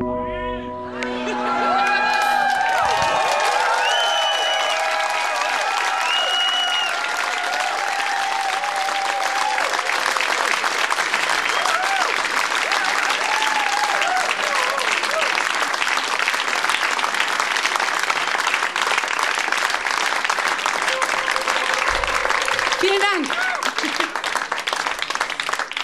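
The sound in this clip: An audience applauds and cheers after a flick-flack and a double somersault in a performance: dense, sustained clapping with whoops and shouts, staying loud and even for about twenty-five seconds.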